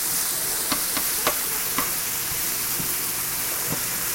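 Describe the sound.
Onions sizzle as they sauté in a pan over medium heat, a steady soft hiss of frying broken by a few light clicks from stirring.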